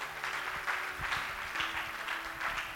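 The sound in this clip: Faint applause from a church audience during a sermon, a steady wash of many hands clapping that continues evenly through the whole stretch without pausing.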